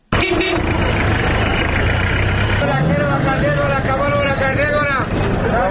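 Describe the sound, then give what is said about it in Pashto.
Drivers shout for passengers over running engines at a vehicle stand in Khost, where cars leave for Gardez. Loud overlapping calls ride on a steady engine drone throughout. “دا د خوست ښار څخه د ګردیز پر لوري د وتونکو موټرو د موټروانانو غږونه دي چې دا سوارلۍ پیدا کېدو لپاره هډې ته د ورننوتونکو خلکو په لیدلو وهي.”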